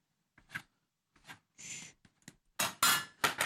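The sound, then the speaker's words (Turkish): Sugar is added to a poppy seed paste loosened with Nermin oil, heard as a series of short scrapes and clinks separated by gaps. The sounds grow louder and come closer together toward the end. “Ben şimdi haşhaşımı Nermin sıvı yağıyla açtım. Bu bir ezme ya biliyorsun. İçine şekerimi de koyuyorum.”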